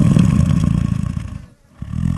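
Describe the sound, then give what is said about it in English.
Tranquilized lion snoring in Kenya, a loud, deep, rasping rumble that fades into a brief silence before the next rough breath begins. “Lions hunt at night and nap all day. This is a snoring lion.”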